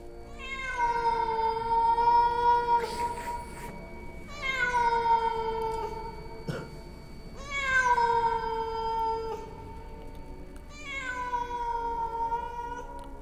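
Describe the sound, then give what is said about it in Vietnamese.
A cat meows mournfully in four long, drawn-out wails, evenly spaced and wavering in pitch. The wails are loud and clear over a faint background, with no talk. “trong cái tiếng ầm ầm lẩn khuất kia, thì có tiếng một con mèo kêu lên não nồng.”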